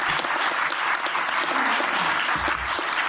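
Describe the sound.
Audience applause welcoming a speaker at a public talk: dense, steady clapping from many hands that holds at a constant loud level throughout.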